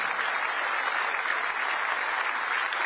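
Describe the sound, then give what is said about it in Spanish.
Congregation applause at a night church service, dense and loud, holding steady without a break from start to finish. “Dele fuerte ese aplauso a Él.”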